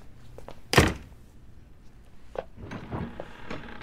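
Knocking on a door: one heavy, loud thud, then a quieter knock and low rustling.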